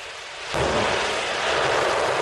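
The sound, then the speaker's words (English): The rocket carrying the European Space Agency's Jupiter icy moons mission lifts off from Kourou in French Guiana, a loud, deep, rumbling roar that surges in after half a second and holds steady. “This was the moment the European Space Agency's mission blasted off, the start of a 4 billion mile journey to the outer solar system.”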